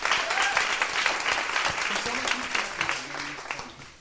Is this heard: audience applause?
yes